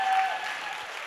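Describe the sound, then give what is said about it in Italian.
Audience applause for the young people at a Sunday gathering: a brief burst of dense clapping that starts full and gradually thins and fades. “vogliamo fare un applauso ai nostri giovani”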